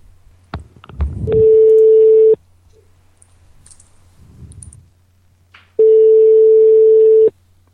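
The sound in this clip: An outgoing telephone call produces a ringback tone: two long, steady, mid-pitched tones separated by a silent pause. Line clicks and faint noise come just before the first tone.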